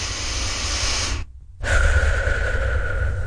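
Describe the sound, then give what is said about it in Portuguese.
A deep breath of fresh air out in nature: a long hissing inhale, a brief pause, then a long, breathy exhale that ends with a faint whistling tone. “Ah, não há nada melhor do que o ar que se respira aqui no meio da natureza.”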